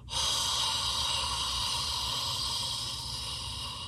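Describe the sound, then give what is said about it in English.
A loud, prolonged audible exhale, done as a warrior breath, gives a steady, breathy, throaty hiss. It starts abruptly and holds strong for about four seconds, easing off slightly toward the end, with no talk. “we stimulate it by exhaling and usually making a sound as we exhale, kind of like a Darth Vader, like a...”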